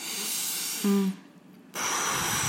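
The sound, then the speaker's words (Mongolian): A deep exhalation through the mouth with relaxed lips, like blowing out a candle, used as a labour breathing technique. Two long, airy hissing breaths are separated by a short quiet pause. “сайхан хамраараа Гүнзгий амьсгал аваа дандаа уруулаа суллаад амаараа урагш нь үлээж гараад гэд лаа үлээж байгаа юм шиг.”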